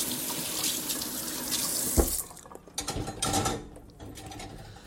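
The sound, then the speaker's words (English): Water runs from a tap into a kitchen sink as dishes are rinsed, a loud, steady rushing hiss that cuts off partway through and gives way to a few scattered knocks and splashes. “Rinse off a little bit.”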